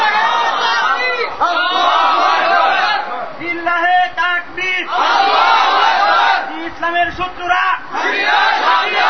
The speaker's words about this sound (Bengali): Slogan দিলে জোরে দিবেন যেন শয়তান ভয় পেয়ে চলে যায়, ইমানের জজ্বা তো আসতে হবে, এই দুর্বলদের কাজ হবে কিছু? তাকবীরের ধ্বনিতে শয়তান পালায়, কুফাররা পালায়